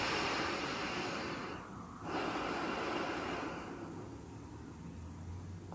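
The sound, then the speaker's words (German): Deep breathing in and out through the nose, a steady, airy rush of breath that dips briefly and then carries on as a slightly softer exhale. No voices are heard. “Schließe die Augen und atme jetzt tief und vollständig durch die Nase ein und aus.”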